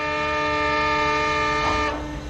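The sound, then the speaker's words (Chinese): Long steady train whistle from a military train departing, a loud sustained chord-like blast with many harmonics, holding level before tapering slightly at the end, with no talk over it. “随着长长的汽笛声，军列开动了。”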